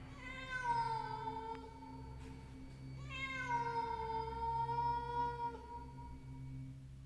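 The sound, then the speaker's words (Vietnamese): A stray cat yowls twice, each cry long and drawn out with a slight wavering pitch, fairly faint above a steady low hum. “Hóa ra là con mèo hoang.”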